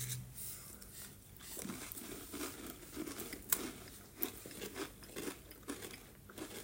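Crunching and chewing of Swedish gingerbread biscuits: many irregular crisp bites and crackles at a faint level, with no talk over them.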